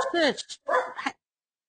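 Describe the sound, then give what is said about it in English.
A dog barks after a knock on a window: two loud, short, tonal bursts separated by a brief pause, followed by silence. “knocked on the window to scare me and set the dog off”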